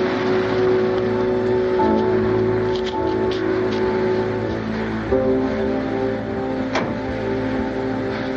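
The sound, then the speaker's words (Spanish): Car arriving and driving off in a street scene from The Godfather (1972): a steady, low engine rumble with humming tonal layers that shift partway through, continuous and without voices. “Llega un coche, se abre la puerta del asiento delantero y Michael sube.”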